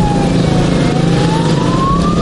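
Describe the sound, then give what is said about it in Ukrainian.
Sirens and roaring engines from motorcycles escorting a village funeral procession: a siren tone climbs slowly and steadily over a loud, continuous engine drone. “35-річного Максима та 36-річного Романа Мосійчуків село Калинівка проводжало в останній путь під гул двигунів і сирени мотоциклів.”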